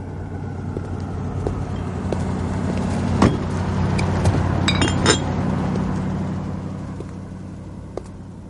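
Glass bottles in a box of drinks clink as it is set down on a car hood, a few bright chinks over a continuous low engine rumble.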